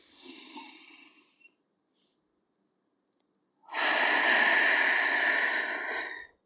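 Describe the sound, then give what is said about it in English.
A deep breath drawn in through the nose during a guided relaxation and breathing exercise: a short airy puff, then a long, steady, fairly loud inhale of roughly two and a half seconds, with no talking. “Take a big deep breath through your nose.”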